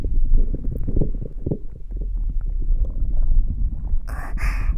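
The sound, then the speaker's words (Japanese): ASMR ear cleaning with sucking at built-up earwax, a muffled, low, rumbling wet suction close to the microphone, ending in two brief bright hissy bursts. “耳垢が溜まってる部分をジューッと吸ってみたりも。”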